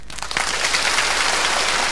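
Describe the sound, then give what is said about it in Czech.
Warm applause comes from an audience during a comedic clapping lesson. A dense, crackling patter of many hands rises quickly at the start, then holds steady and fairly loud. “A teď vřelý potlesk.”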